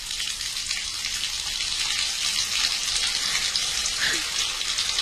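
Water runs steadily for a bath or shower, a continuous even hiss and splash with no clear breaks throughout, and no voices.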